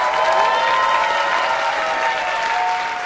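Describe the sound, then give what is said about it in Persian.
Steady applause from a crowd at a gathering, clapping in honour of a man's wife. The clapping holds evenly loud throughout, with a faint sustained tone running underneath. “یه دقیقه بخواد افتخار خانومشون ما تو فیلم منو بگی، به افتخارشون دست میزنم. به افتخار خانومشون”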